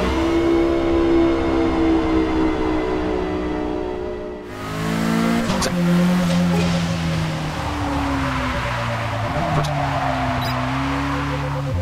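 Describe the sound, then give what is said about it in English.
Race car in a racing video game pulls out of the pit box, its engine a loud, steady harmonic whine that shifts abruptly and then rises and falls in pitch as it revs and gathers speed. “Your pit crew executes repairs. With the pit stop completed, your car pulls out of the pit box.”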